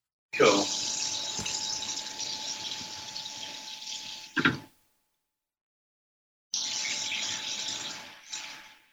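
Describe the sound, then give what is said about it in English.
Water running from a tap into a sink as it fills: a steady, broad rushing stream in two long stretches separated by a few seconds of silence, each ending with a brief louder splash or clunk. “How's your sink filling going?”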